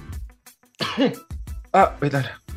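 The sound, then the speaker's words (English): A person coughs and clears their throat in a few harsh, rough bursts in quick succession, with speech around them. “Naubo ako.”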